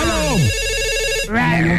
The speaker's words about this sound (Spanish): Recibimos la primera llamada.